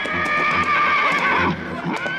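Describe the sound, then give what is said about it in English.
A horse neighs in a loud, shrill whinny with a rich, wavering tone lasting about two seconds, with a few hoof clops beneath it. “That's our horse, man!”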